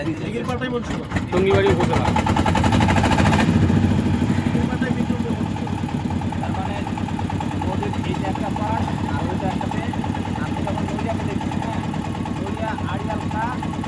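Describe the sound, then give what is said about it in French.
An engine that is started with a removable hand crank runs with a loud, steady throbbing idle. It is heavier and louder in the first few seconds, then settles to an even drone under talk. “Il y a une manivelle pour faire démarrer le moteur là. Voilà. Il y a manivelle amovible.”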